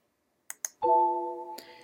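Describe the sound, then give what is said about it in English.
Two sharp mouse clicks while applying Java settings in Windows 8, followed by a clear, sustained chime tone that rings on steadily. “So I'm going to uncheck Enable Java Content in Browser. Then I'm going to click Apply.”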